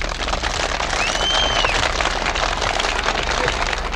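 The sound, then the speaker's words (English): A crowd gives a standing ovation to a senator at College Stadium in Greenville in 1960: a continuous, loud roar of clapping and cheering that holds steady throughout. “The senator is now getting a standing ovation. You can hear the crowd in the background. They're all flooding.”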